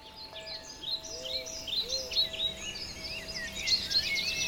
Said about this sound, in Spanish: los sonidos que hay son los silbidos de los pajaritos, los cantidos de cada ave que uno escucha